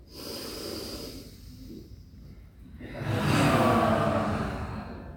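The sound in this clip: An audience at a talk breathes in together, then lets out a big collective exhalation. A softer breathy inhale and a brief lull are followed by a louder, longer rushing exhale that slowly tapers off.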